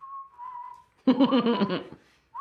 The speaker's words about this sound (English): He's walking very casually, just whistling Camp Town Races.